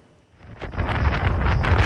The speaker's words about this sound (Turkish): Hindistan'da kum fırtınası hayatı felç etti. Rajasthan eyaletinde görüş mesafesi sıfıra düştü. Kum fırtınalarının da devam edeceği belirtildi.